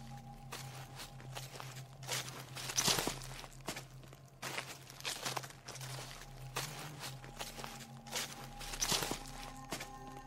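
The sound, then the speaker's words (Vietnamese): Shuffling footsteps beside a house make many irregular, soft scraping steps that come and go over a constant low hum, with a few louder scuffs along the way. “chị nghe có tiếng bước chân của ai loẹt xoẹt, đi ở bên hông nhà, ra sau vườn.”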